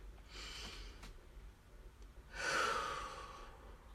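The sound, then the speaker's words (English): A deep breath, faint and breathy: a soft first rush of air, a pause, then a longer and louder second breath. “let's grab ourselves a cup of tea, take a deep breath.”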